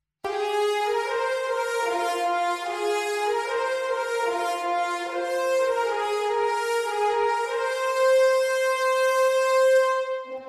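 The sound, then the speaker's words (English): Six French horns play a heroic melody in unison for an epic orchestral climax: full, bright sustained notes stepping through the line, loud and steady, heard alone without other instruments. “And so I've put all six French horns on this melody.”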